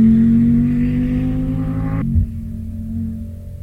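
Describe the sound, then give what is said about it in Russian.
A car engine roars as the car is pushed hard to overtake: a loud, steady humming drone that abruptly drops to a lower, rougher rumble partway through. There is no talk. “Далила, лихо посылая автомобиль на обгон”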